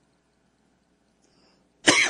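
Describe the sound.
A short, harsh cough with throat clearing from someone with something caught in the throat. It comes abruptly after nearly two seconds of near silence, loud and brief.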